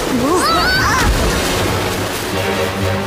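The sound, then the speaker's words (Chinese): Rushing water and a crashing splash as a small floating island breaks apart in rapids. Sliding whistle-like tones come early, a low thud falls near the middle, and a steady roar of water follows. “哦，我的天哪，这座小浮岛开始四分五裂了。 哦，糟糕。 哦，这座浮岛遇到急流就会彻底散架。”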